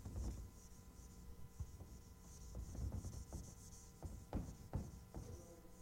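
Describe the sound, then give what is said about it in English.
An eraser scrubbing writing off a board, repeated rubbing strokes with uneven rhythm, some sharper swipes near the end, faint over a low steady hum. “So I'm going to erase this. I hope that's okay, because I need the board.”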